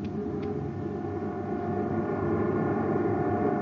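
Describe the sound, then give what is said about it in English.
Faint, steady electrical hum of a generator running aboard a lab ship, with layered tonal drones holding constant throughout and no voices. “Turn on the generator.”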